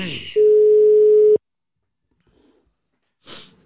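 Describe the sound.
A telephone tone on an outgoing call sounds once as a steady, mid-pitched hum lasting about a second, then stops abruptly. A few faint rustles and a short breathy burst follow.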